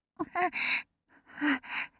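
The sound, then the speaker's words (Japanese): Soft breath blown close into the ear, heard as two short clusters of breathy puffs with brief voiced gasps between them, gentle and intimate with no speech. “やめて。息ふうふうしないで。”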